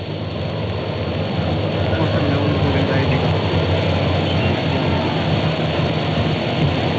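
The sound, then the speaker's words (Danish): An express train pulling away sounds as a steady, heavy low rumble with a constant engine drone and broad noise. It holds at an even level throughout, with no distinct separate events. “Så, nu lyder signalet. Lyntoget kører frem, og med øjeblik bilerne.”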